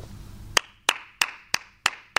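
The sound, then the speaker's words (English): Six slow, evenly spaced handclaps, sharp and loud, each with a short ringing tail, from what sounds like a single pair of hands, with no voices. “The applause is for Mourinho, not for me.”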